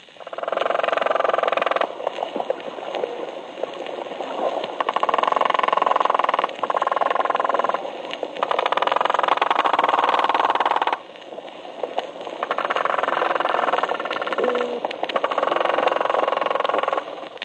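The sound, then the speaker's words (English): Croaker fish, a one- to two-foot species of the Atlantic and Gulf coasts, give off staccato croaking like a riveting gun: rapid, rattling pulses in long, loud bursts broken by a few brief pauses. “First, the fish known as the croaker. This fish grows to a length of 1 or 2 feet and is generally found along the Atlantic and Gulf coasts. It produces a staccato sound like a riveting gun.”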